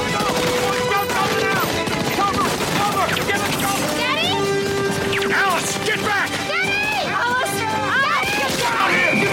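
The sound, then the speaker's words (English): Gunfire erupts aboard Air Force One, rapid volleys of shots mixed with crashes, while urgent shouting voices talk over the chaos throughout. “Shots fired, sir!”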